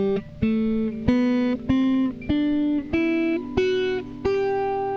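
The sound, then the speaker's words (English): A G major scale plucked on guitar: eight clear notes climb step by step at an even, moderate pace. Each note rings briefly into the next, played solo with no voices. “The G scale notes are G, A, B, C, D, E, F sharp, and G, and it sounds like this.”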